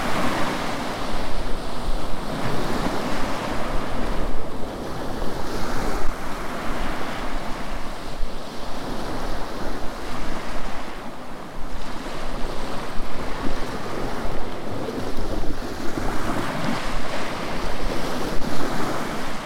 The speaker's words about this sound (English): one of the sounds we liked most, because in Turkey especially we camped quite a few times by the seaside, it's the sound of the waves.